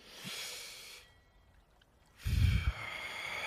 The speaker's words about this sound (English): Take a deep breath.